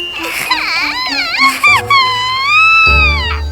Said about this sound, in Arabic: لكن حين رأته يرحل بدأت ليا الصغيرة في البكاء.